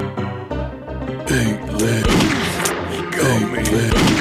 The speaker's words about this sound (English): He got me! He got me! He shot me!